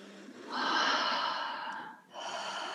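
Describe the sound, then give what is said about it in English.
One person takes a deep breath, a long, airy inhale that swells and then eases off, followed by a brief dip and the start of a soft, breathy exhale. “So take another deep breath in and out.”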